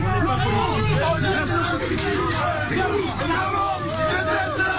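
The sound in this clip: Hostile supporters jeer a government minister, making a dense, unbroken roar of many overlapping shouting voices at a steady, loud level throughout.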